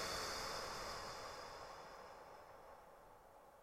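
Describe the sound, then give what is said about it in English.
A slow, deep exhale during a cosmic breath meditation: a soft, steady breathy hiss that gradually fades over a few seconds, with no talking. “Take a couple of nice deep inhalations and let them go.”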